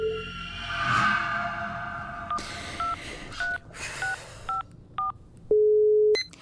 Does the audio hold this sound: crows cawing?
no

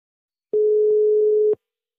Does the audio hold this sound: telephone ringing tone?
yes

